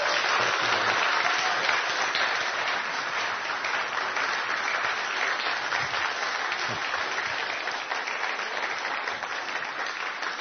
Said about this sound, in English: So let's give a big hand and a welcome to Pastor Peter.